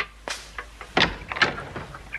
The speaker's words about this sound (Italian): Su avanti, apri la porta. Ma chi sarà mai a quest'ora? E apri.